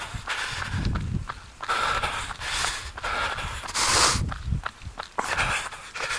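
Running footsteps on a cul-de-sac: a steady train of footfalls with a muffled, thudding low end and scuffing highs, moderately loud throughout with brief dips between strides.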